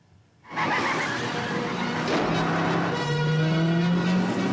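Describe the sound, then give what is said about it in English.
Car flipping over, heard as a loud, sustained roar of engine and road noise with high, thin tire-squeal tones layered on top, holding steady throughout without any distinct impact. “Car flips over the Nazi gremlin.”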